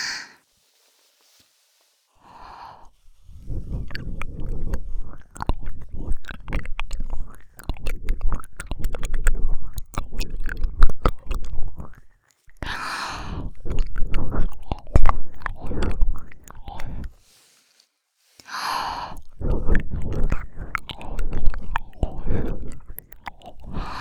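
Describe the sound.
Close, wet chewing and biting sounds simulate eating a listener's ear in a roleplay. Many crackly smacks and nibbles come in long runs, separated by short silent pauses, fairly loud and with no talking.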